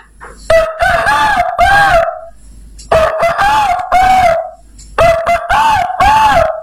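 A rooster crows three times, loud and clear, each cock-a-doodle-doo drawn out with a wavering pitch, separated by short pauses and a few soft clucks.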